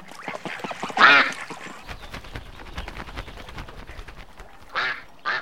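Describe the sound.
A duck gives three loud, raspy quacks, one early and two close together near the end, over quieter background sound.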